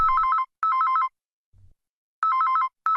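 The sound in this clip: A telephone rings in a double-ring pattern, each burst a fast warbling electronic trill. Two pairs of rings sound with a short gap inside each pair and a longer pause between the pairs. No voices are heard.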